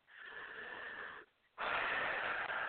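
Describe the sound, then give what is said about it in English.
A big breath drawn in through the nose for about a second, then a short pause and a louder, rushing exhale out through the mouth during a guided breathing exercise, with no talking. “take a big breath in through your nose and out through your mouth.”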